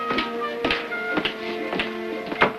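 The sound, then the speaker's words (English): Knuckle knocks on a cabin door below decks on a ship: a few sharp, evenly spaced raps over a steady tonal background. “Finally, the sailor stops before a door and raises a knuckle to it.”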